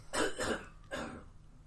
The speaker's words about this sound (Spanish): He oído una tos. No he sido yo.